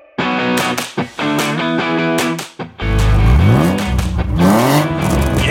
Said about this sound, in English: Gotta love the sound of a nice, smooth BMW straight six. I would say one of the best sounding modern European engines,